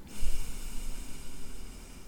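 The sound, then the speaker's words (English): Slow exhale through one nostril during alternate nostril breathing in pranayama practice, a soft, steady airy hiss lasting about two seconds that thins out toward the end. “Breathing in, switch nostrils, breathe out.”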